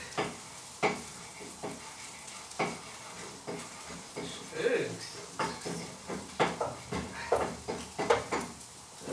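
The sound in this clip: Spätzle being stirred in a hot pan, with a steady run of scraping and clinking strokes over a soft sizzle of frying, moderately loud and uneven in rhythm.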